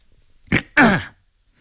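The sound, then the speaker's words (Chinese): A man clears his throat before reading out an imperial decree: two short rough bursts, the second longer and more voiced, heard alone without talk. “宜良抖开一张黄绫表纸，清了清嗓子。”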